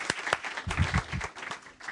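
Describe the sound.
An audience at a morning gathering claps to welcome a guest speaker, a brief burst of uneven, moderately loud applause.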